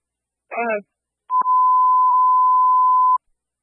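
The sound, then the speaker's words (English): Emergency evacuation tones sent by fire dispatch over the radio to units on a fire ground: a brief buzzy warbling burst, then a sharp click and a loud, steady high beep held for almost two seconds. “All units, emergency evacuation. Dispatch out with evac tones.”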